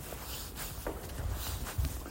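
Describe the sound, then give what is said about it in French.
Footsteps of a person walking outside on the way to pick up a parcel: soft, faint steps with a few duller thuds, irregular and unhurried. “Là, je suis sorti marcher, je devais récupérer un colis, donc j'en ai profité pour marcher”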